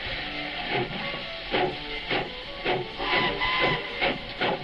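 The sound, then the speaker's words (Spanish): A small steam tourist train hisses steadily as it departs, with rhythmic bursts of chuffing steam repeating at a quick, even pace over the continuous hiss. “Recuerda que al lado de esta plaza podéis montaros en el Chiquitren, que os dará un entretenido paseo por el Jardín del Príncipe y por el casco histórico. ¡Pasajeros al tren!”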